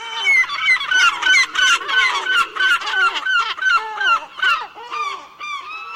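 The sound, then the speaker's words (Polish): Gulls scream in a noisy flock, many harsh, nasal calls in quick overlapping bursts that rise and fall, loud and with no voices. “a rozkrzyczane mewy zapewnił Tomasz Ogrodowczyk”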